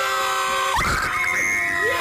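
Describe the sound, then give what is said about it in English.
An excited woman's scream of joy after a music quiz, a high sustained cry that bends upward and holds, rising loud over the last moments of fading music. “A scream.”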